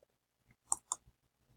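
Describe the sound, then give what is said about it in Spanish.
Two quick, faint mouse clicks, sharp and close together, as the publish button is pressed while building a website. “Voy a publicar, clic en publicar.”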